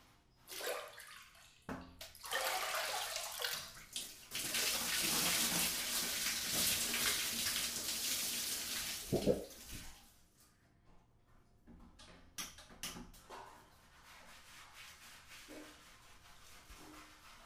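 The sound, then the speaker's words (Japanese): Water running while someone's hair is washed: a steady rush and splash of flowing water lasts several seconds, then gives way to quieter, scattered splashes and drips. “人に髪を洗ってもらうのってなんだか不思議な気持ちよさがあるよな。”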